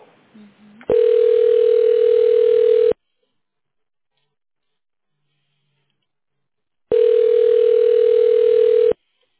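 Telephone line tone plays while a call is being transferred: two long, steady, mid-pitched beeps of about two seconds each, separated by roughly four seconds of silence.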